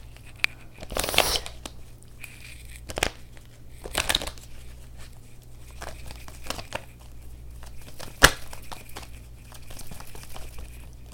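Cards being handled and drawn from a deck during a card reading, a few short, papery rustles and snaps spaced apart over a low, steady hum.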